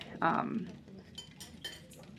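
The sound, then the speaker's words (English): A kitchen drawer beside the stove eased open slightly, with a clear clink and rattle of cutlery and dishes inside, then a few faint clicks. “I retrieve the tea and I open the drawer under, like, the drawer next to the stove ever so slightly”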